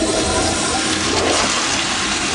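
A toilet flushes with a loud, continuous rush and gurgle of water that stays strong and even throughout, with no voices.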